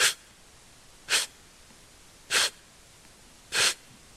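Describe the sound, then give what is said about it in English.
A person demonstrates breathing in over and over without breathing out, making four sharp, noisy sniffing inhalations spaced about a second apart, each brief and loud against near silence, with no exhale between them. “But there are some people, many people, they breathe like this.”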